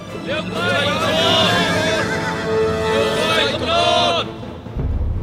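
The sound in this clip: A horse neighs loudly in long, quavering whinnies that waver up and down in pitch, repeating in a couple of bursts over a busy, dense background.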